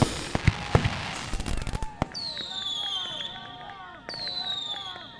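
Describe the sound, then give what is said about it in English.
A homemade fireworks show: a dense run of crackling bursts and sharp pops, followed by two long, bright whistles that each slide downward in pitch over a steady noisy background. “The next logical thing is, our own fireworks show.”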